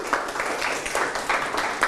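Applause in a classroom game as a group is praised for its score: many students clapping together in a dense, steady patter that continues throughout.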